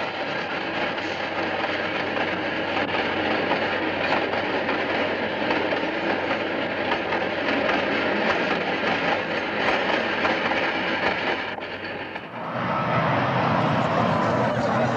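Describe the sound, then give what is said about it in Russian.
A long-distance passenger train passes: a continuous loud rumble with rattling wagons for the whole stretch, briefly dipping and shifting in tone near the end. “Мелькают вагоны проезжающего поезда дальнего следования.”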